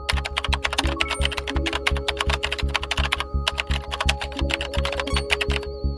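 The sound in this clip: Rapid typing of a search on a computer keyboard: many crisp keystrokes fall in a fast, steady run with only brief pauses, over a faint steady hum. No voices are heard.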